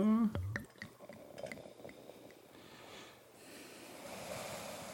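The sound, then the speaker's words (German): Foaming Crémant du Jura sparkling wine is poured into a glass. After a few brief soft sounds, a gentle, steady fizzing hiss builds and carries through the second half. “Und das ist der Schaumwein, ne? Den habe ich schon mal aufgemacht über der Spüle. Nach den Erfahrungen der letzten Jahre. Ja. Ähm, ich schütte ein.”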